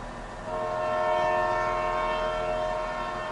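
A departing train sounds a loud, sustained horn whose steady harmonic tone begins after a brief low rumble and holds to the end over the rumbling of the rail cars.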